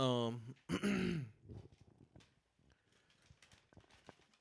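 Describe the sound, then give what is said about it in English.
A deep, throaty belch after drinking Miller Lite beer comes as one loud, drawn-out burst, followed by faint clicks and small mouth noises. “Excuse me, I had to get that up off of me. Now that was the Miller Lite coming back.”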